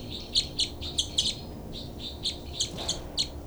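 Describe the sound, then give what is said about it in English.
Birds calling in many short, bright, high chirps, some in quick pairs and others spaced apart, heard alone over a faint low background hiss. “Both birds.”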